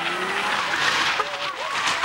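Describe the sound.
Tires squeal from a Mercedes being driven recklessly fast toward a garden fence, a continuous wavering screech over engine roar that holds steady loudness for about two seconds.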